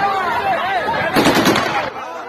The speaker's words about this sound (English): It seems that there's something being shot toward the protesters, maybe. Maybe it's live ammo, I don't know.